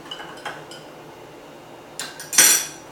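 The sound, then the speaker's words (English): A spoon clinks against a glass as a whiskey cocktail is stirred. A few light metallic taps come first, then a quiet pause, and then louder, sharper clinks. “Strain off our whiskey. Just give the whole thing a bit of a quick stir.”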